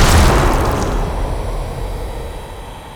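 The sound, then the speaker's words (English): A single gunshot in a dramatized scene: a loud, deep boom at the start that decays slowly into a long, rumbling tail lasting about three seconds. “Shoot my friend Joey in the head, please.”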